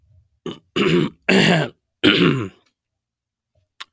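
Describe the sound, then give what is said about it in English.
Harsh throat clearing to bring up phlegm: four rasping, guttural bursts in quick succession, the middle two longest and loudest, followed by silence. “I just had a clear phlegm out of my throat”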